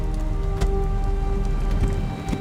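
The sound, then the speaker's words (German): Sleet and hail drum against a window in a storm, making a dense, steady patter with a few sharper hits standing out through the wash of noise. “Das waren keine Regentropfen, was da gegen unser Fenster trommelte. Schnee. Graupel, Hagel, echtes Sauwetter.”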